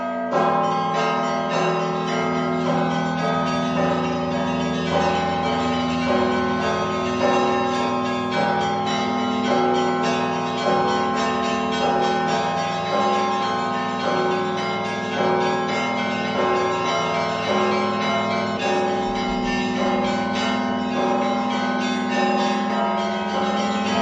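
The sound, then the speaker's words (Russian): Church bells ring a festive Christmas-season peal played by a student bell ringer from an Orthodox bell-ringers' school in Vitebsk. The layered, overlapping strikes ring out continuously and loudly throughout, with no voices. “А тепер у гэты калядные дні будет, до речи, послухать звон, який так и называется – святочный.”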